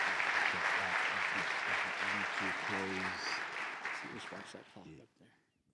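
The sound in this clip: An audience applauds to welcome a visiting pastor, with loud, sustained clapping mixed with voices calling out, fading away near the end.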